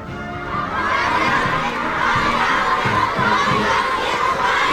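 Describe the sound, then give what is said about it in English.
Dozens of children chant a welcome for President Trump while waving American and Chinese flags and artificial flowers. Their high, shouted voices rise together in a loud, continuous, rhythmic chant that repeats without a break. “Dozens of children welcoming President Trump, chanting a welcome while holding artificial flowers and American and Chinese flags.”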